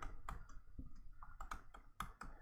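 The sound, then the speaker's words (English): Typing on a computer keyboard while searching in a web browser: a few irregular, sharp key clicks spaced unevenly, fairly faint, with no talking. “So I opened up a browser like this, and I went to Google and I typed in scripture verses”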